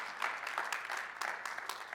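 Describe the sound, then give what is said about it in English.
Faint audience clapping at a church gathering in North Platte, a dense, steady patter of many hands that holds at an even level for about two seconds without a clear break. “They just stopped clapping now.”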